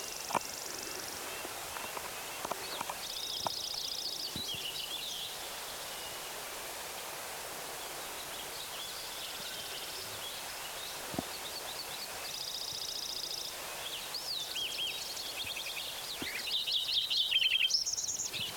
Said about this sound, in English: Lincoln Sparrow number 3.